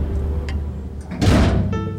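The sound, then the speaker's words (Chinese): A front door swings shut with a single dull, heavy thud partway through, preceded by a few faint clicks and followed by a brief fading rumble. “听到大门关上的声音，一夜未眠的小童决定寻找答案”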